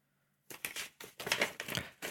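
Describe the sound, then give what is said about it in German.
Pen scratching across a slip of paper as names are written: after a short silence, quick, irregular scratchy strokes follow one another closely, moderately loud, with no voices. “Und ich schreibe jetzt einfach mal die Namen auf einen Zettel.”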